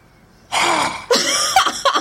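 A forceful yoga exhale through a wide-open mouth with the tongue stuck out. It comes as a loud, rasping, voiced breath, then a few shorter breathy bursts.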